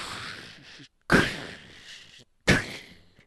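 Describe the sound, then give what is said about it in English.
Artillery salute gunfire: two sharp, loud booms, each followed by a long decaying tail, come after the fading end of an earlier round, with brief silence before each new shot. “This is what it sounds like when those artillery pieces do it”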